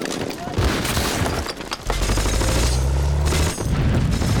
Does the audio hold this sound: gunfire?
yes